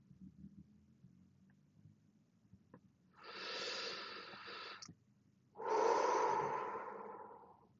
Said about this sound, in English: Had to take a deep breath after that one.